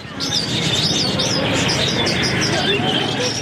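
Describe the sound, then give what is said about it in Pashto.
Birds chirping and cooing at a bird market in Kandahar city, with many quick high chirps repeating over a steady, dense background din. “د کندهار ښار په ځلکی د مرغانو دی بازار کې سلګونه کسان د مرغانو کاروبار کوي”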